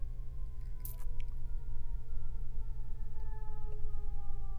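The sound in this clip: A siren wails in long, sustained tones that glide slowly downward over a constant low rumble. The sound stays fairly faint and steady throughout, with no voices.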